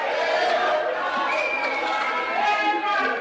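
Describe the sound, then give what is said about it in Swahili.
A crowd cheers and ululates as Zambia's presidential election result is announced, a loud, continuous mass of voices with chatter and a high, wavering cry rising out of it. “Nderemo na vifijo zilizagaa wakati Mwangala Zalumis, mwenyekiti wa tume ya uchaguzi ya Zambia, alipotangaza matokeo ya uchaguzi wa rais mapema leo Jumanne.”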